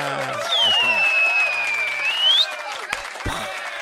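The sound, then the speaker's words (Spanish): A studio audience applauds to welcome a guest, dense steady clapping with a long whistle-like tone over it. Voices are heard under the applause before it thins out near the end. “Ahí está el aplauso recibitorio.”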